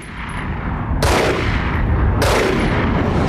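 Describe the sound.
Two pistol gunshots, sharp loud cracks about a second apart, over a steady rumbling noise bed.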